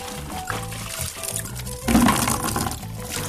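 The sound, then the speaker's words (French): Water pours while blanched, softened amaranth greens with their stems are washed, a steady liquid rush that grows noticeably louder and fuller partway through. “Après avoir fini, je lave mes légumes et je les presse pour faire des boules.”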